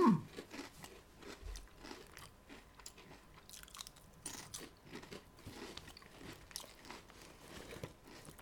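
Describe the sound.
Crunching and chewing of a chorizo-flavoured snack, with many irregular crisp bites and chews throughout, fairly faint and with no talk.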